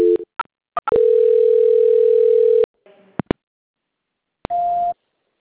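Telephone line tones while a call is transferred: a few clicks and short beeps, then a steady low tone held for nearly two seconds, more clicks, and a shorter, higher-pitched tone near the end.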